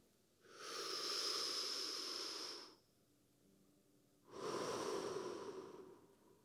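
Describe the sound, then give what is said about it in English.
An audience takes a deep breath together during a church service: two long, airy breaths separated by a quiet pause, each swelling and holding steady before fading. “Would you take, everybody, I want to hear you, take a deep breath.”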